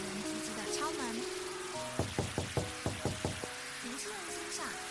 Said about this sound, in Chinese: 敲得这么急，他打开门看看是谁